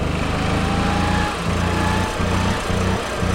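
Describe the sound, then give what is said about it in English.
A small engine on a small drivable vehicle being pushed hard and drifted, revving against the rev limiter: a loud, buzzy continuous drone broken by a few brief stuttering cutouts. “Yes, yes! I think we hit the rev limiter!”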